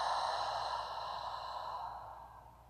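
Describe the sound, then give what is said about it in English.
A long, deep breath out, a soft airy sigh that starts fairly strong and slowly fades over about three seconds, heard alone. “Taking a deep breath in and out,”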